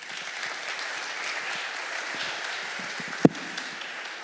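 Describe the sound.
An audience applauds to welcome a speaker, a steady, dense wash of clapping with one sharp thump near the end.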